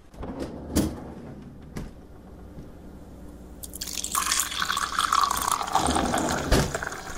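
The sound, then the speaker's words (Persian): A glass of water being poured: a few light clicks and knocks, then a steady splashing stream of water filling the glass through the second half, loud and continuous. “من اگه اشکال نداره من برم یه لیوان آب بردارم.”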